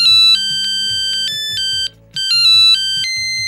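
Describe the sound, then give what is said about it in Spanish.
A mobile phone ringtone plays a bright, repeating electronic melody of short high-pitched beeps. It is loud and alone, with one brief pause near the middle before the tune starts again. “Se oye un móvil, ¿no? A alguien le vibra.”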